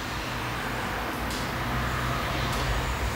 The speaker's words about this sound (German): Ross schließt die Tür und dann höre ich nur noch den Verkehrslärm